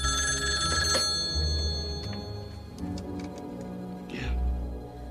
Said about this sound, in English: Still clutching the note, Ray gets up slowly and answers the phone.